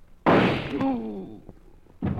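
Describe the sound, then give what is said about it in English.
A single loud gunshot in an old radio mystery drama cracks out sharply and decays over about a second, with a brief voiced sound over its fading tail and another abrupt burst starting just before the end. “Holy mackerel, where'd that shot come from?”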